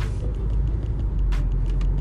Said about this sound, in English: Look, I need a smooth pavement because, look, I'm not trying to pay for no tires. But I'm headed back home now.